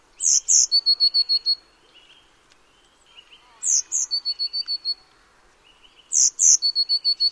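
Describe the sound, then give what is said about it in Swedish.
A Eurasian blue tit sings three separate phrases. Each phrase opens with a couple of high, thin notes and drops into a quick trill of lower, even notes, with quiet pauses between the phrases. “Nu får ni lyssna på blåmesen redan innan här, så behöver ni inte gissa.”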